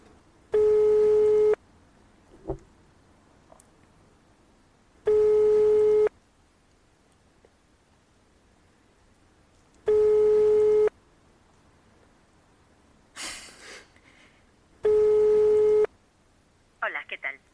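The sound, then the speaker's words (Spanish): Telephone ringing tone on an outgoing call that goes unanswered: four steady, even tones about a second long each, separated by long silences, with a few faint clicks and rustles between them. “Vamos a ver si Toño Profe nos coge el teléfono. Esto es completamente improvisado, así que igual no nos coge.”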